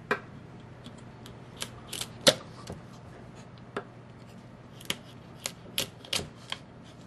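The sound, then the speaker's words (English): A knife cuts a raw lobster tail through the shell into medallions, producing many faint, sharp cracks and clicks at irregular intervals over a quiet background. “So you're cutting it in each of the little sections of the tail. Cutting through the shell.”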